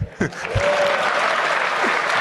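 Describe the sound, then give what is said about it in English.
An audience claps, with a few spoken words at the start. The clapping then continues as an even, dense patter to the end. “Each time I say shit, something is clapping. This is cool.”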